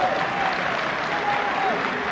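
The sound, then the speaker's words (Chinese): An audience applauds at a live stage performance, producing a steady, dense wash of clapping that holds at an even level throughout, with a voice faintly heard over it. “您蒙鼓掌，鼓掌他也不会弹吉的。”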